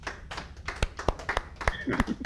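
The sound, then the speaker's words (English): Scattered hand clapping from an audience applauding a presenter, with sharp uneven claps over ongoing talking voices. “Give a hand to Joe Walker, everybody.”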